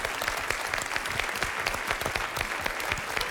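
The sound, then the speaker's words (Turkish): Audience applause for a friend, a busy, even patter of many hands clapping together at a constant level from start to finish. “Yine alkışlar başladı. Arkadaşımıza alkışlıyoruz.”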